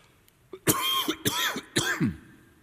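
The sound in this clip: A person clears a tickle in the throat with three rough, voiced rasps in quick succession. Each burst is fairly loud against a quiet background, with a faint catch just before the first.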